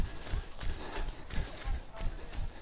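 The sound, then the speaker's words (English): Footsteps of a runner jogging uphill on slightly undulating terrain: steady, evenly spaced soft thuds in a regular running rhythm, faint and continuous throughout. “Just jogging uphill now.”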